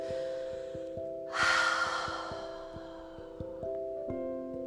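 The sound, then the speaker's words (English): A deep breath is exhaled through an open mouth as one long, airy rush that swells quickly and then fades over about a second, over soft, steady music with a gentle pulsing beat. “Take some nice deep breaths. Releasing breaths. Maybe have your mouth open as you exhale.”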